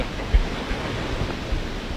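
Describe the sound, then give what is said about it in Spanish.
Light rain falls in Mazatlán, a soft, even hiss of drizzle that holds steady throughout, broken only by a few faint low thumps. “disfrutemos la lluviecita que nos está cayendo en Mazatlán”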